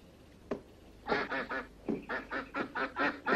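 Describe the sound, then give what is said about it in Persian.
A duck quacks in a rapid, fairly loud series of nasal, buzzy calls, alone with no talk. A single sharp click comes first, then a short burst of three quacks and a longer run of about seven more. “یه اردک؟ بله همون یکی گفتی، یه اردک.”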